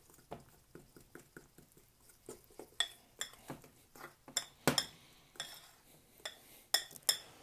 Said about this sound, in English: Stirring this up, getting all this shit in.